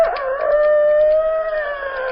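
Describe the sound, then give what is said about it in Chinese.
A person imitates a rooster crowing, as a chicken thief would, in one long, loud, sustained call that holds an even pitch from start to finish, with no other sound. “偷鸡的装起来了公鸡啼”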